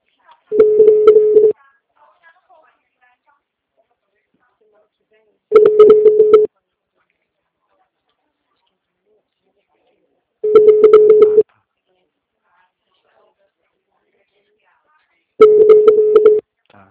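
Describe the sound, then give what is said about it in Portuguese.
Telephone ringback tone of a call that goes unanswered: four evenly spaced beeps, each about a second long, at a steady mid pitch with silence between them. “Aqui tá chamando a beça, só que ele não tá atendendo.”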